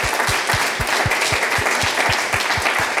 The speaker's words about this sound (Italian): Allora, direi che facciamo un applauso per lui, per chi